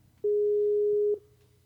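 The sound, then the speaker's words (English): Ring tone heard while calling a cell phone: one long, steady mid-pitched electronic beep lasting about a second, alone, then quiet. “He tells me to call him. They don't pick up. And now we're calling his cell phone.”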